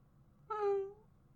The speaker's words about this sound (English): I'm a very needy kitty.